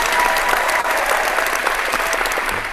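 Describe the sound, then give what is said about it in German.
Dense, even applause from many hands fills the whole short stretch at a steady, fairly loud level, a continuous rustling wash of claps with no pause or talk. “Aber du hast es ohne Fehler geschafft und dafür gibt es einen Applaus.”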